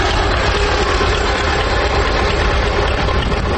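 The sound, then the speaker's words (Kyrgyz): Engine running on a German crawler tractor converted into a crane and refitted with rubber wheels: a loud, constant, rough rumble with dense low-end chugging, steady throughout with no change in pace and no voices. “Кас таман герман тракторуна желим дөңгөлөк салып, алдына кошумча дөңгөлөк темир тезектерди кошуп отуруп, кадыресе кранга айлантыптыр.”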